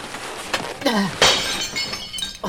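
A vase falls from a wobbly shelf and shatters: several crashing glassy impacts and clinks, the loudest burst in the middle, followed by scattered tinkling of shards and one more clink at the end.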